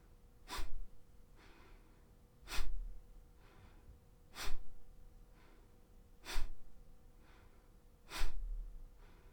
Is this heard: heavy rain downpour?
no